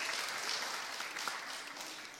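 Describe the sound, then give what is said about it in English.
Congregation applause in a church, soft and steady, tapering slightly toward the end, with no voices over it. “It's okay to clap in church.”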